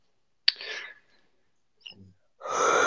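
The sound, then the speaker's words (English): Human yawn heard as breathy vocal sounds in a few separate bursts: an abrupt first burst that trails off, a brief quiet one, then a longer sustained breathy sound at the end. “No yawning allowed on live air, please.”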